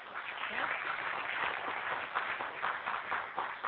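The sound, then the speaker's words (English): Round of applause from an audience seated at tables during a presentation, an even, continuous wash of clapping at moderate level. “Thank you all so much. Another round of applause for our”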